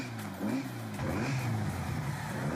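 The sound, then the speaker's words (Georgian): A race car engine revs in a lightweight, stripped-down Beetle-type car built for speed. The engine roar is fairly quiet and continuous, and its pitch wavers up and down with no voices. “ასეთი მანქანით ძალიან სწრაფად დაქრიან.”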